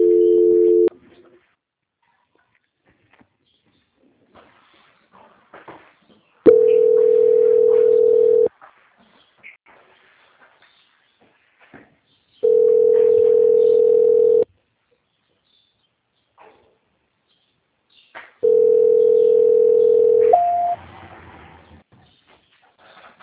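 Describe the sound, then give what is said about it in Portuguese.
A steady telephone tone plays during a call transfer, four long beeps of equal pitch evenly spaced and separated by silence, the first one cut short. “Eu vou tentar transferir a ligação agora, tá? Tá bom. Transferência.”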